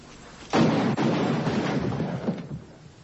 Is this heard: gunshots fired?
yes